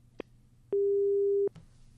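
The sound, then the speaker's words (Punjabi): A telephone tone after a call drops: a single steady, mid-pitched beep lasting under a second, set between faint clicks. “ਸ਼ਾਇਦ ਕੋਈ ਤਕਨੀਕੀ ਖਰਾਬੀ ਕਾਰਨ ਉਹਨਾਂ ਦਾ ਕਾਲ ਕੱਟ ਹੋ ਗਿਆ।”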